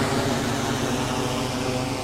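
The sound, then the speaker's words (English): A drone zooms over a prairie dog town, giving off a steady, continuous mechanical whine and hum at an even loudness with no pauses. “The sun is up now and a drone named Shep is zooming over a prairie dog town.”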